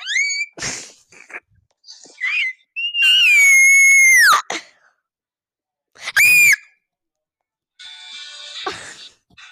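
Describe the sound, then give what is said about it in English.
High-pitched screaming from a person comes in several separate bursts, the longest a loud, sustained shriek in the middle, followed later by a shorter piercing cry, with squeaky vocal squeals between them. “Then go ahead, scream like that. Go ahead, I dare you to.”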